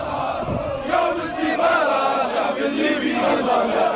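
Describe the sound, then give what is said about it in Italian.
Demonstrators shout in Tripoli, Libya, a loud, continuous mass of crowd voices crying out together with no pauses. “Avete sentito voci dei dimostranti ancora a Tripoli, in Libia.”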